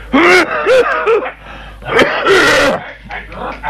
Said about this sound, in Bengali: তারপর এই প্রাণ বের করা কাশির তো আর থামার নামগন্ধ নেই।